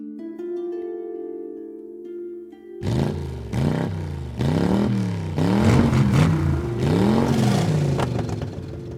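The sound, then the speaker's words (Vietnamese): A motorcycle exhaust revs loudly at night, after a sustained musical tone, as a series of rough roaring revs that rise and fall in pitch, one after another. “tiếng bô xe máy nẹt chân trời làm xáo động cả bầu trời đêm vắng vẻ”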